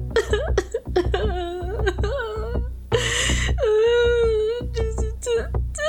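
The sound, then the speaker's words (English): A man's voice imitates a man sobbing, drawing out several wavering, wailing moans broken by short gasps and whimpers. “he's just crouched in, like, the alleyway, and he's just sobbing, and he's just like...”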